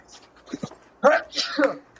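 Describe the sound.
A single sneeze, a sudden loud burst of breathy noise, with voiced sounds around it.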